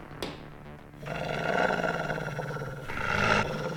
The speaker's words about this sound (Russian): Что за черт? Откуда взялась собака?